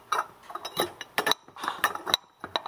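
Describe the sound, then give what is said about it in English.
Sharp metallic and ceramic clinks as a tea infuser is worked back into a teapot under its lid, many quick irregular taps and chinks in uneven bursts, with no talking. “this infuser came out a bit when the lid came off and I can't get it in there properly.”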